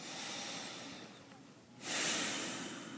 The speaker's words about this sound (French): Et un expire également avec le nez. Et puis une troisième, inspire avec le nez. Et expire avec le nez.